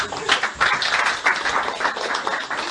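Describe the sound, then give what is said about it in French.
Audience applause at a teaching and sharing gathering: dense, steady clapping that runs unbroken through the whole clip at an even, fairly loud level. “Applaudissez pour ses frères.”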